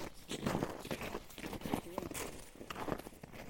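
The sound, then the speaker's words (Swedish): Footsteps of a person walking outdoors, a steady run of scuffing steps mixed with murmured talk throughout. “Jag går, det händer saker”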